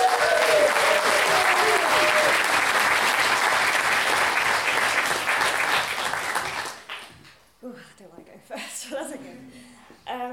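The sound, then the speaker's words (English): Audience applause for a storyteller at a live storytelling event, loud sustained clapping that fades out after about seven seconds, then a single voice begins speaking. “And then a huge round of applause for our first storyteller, Emma!”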